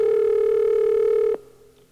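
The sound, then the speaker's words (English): A telephone line dialing a movie hotline gives a loud, steady dial tone for over a second. It cuts off with a sharp click, leaving faint line noise. “Let's go ahead and get down there and see if we can dial this and see what happens on this.”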